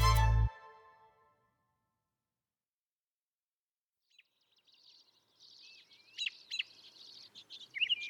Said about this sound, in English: That sound you're hearing is spring beginning. The song of the robin.